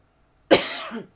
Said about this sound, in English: My throat. It's not COVID. I choked on my drink.